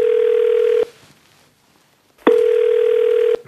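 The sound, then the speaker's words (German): Ringback tone heard by a caller placing a phone call: two long, steady, mid-pitched buzzing tones separated by a pause, with no talk. “Den wollte ich noch anrufen.”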